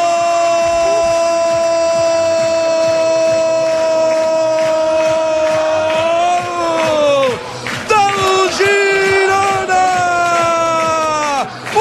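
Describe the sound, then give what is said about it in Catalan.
A football crowd at Montilivi stadium roars in celebration of a goal, loud and sustained throughout, with a voice shouting long held notes over the cheering. “I a Montilivi, el públic que ja celebra la victòria.”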